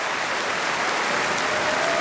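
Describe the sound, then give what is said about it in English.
Steady, dense applause from a concert hall audience for a pianist taking her bows at a classical concert with an orchestra, an even wash of clapping with no voices. “Mata Argerich bowing to the audience behind the orchestra before turning to the main part of the hall once more and acknowledging the applause.”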